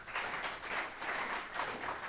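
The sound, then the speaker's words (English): Faint applause from a concert audience for a jazz band, a soft, even wash of clapping with gentle swells and dips throughout. “But before that, I'd like you to applaud this wonderful band once again, please.”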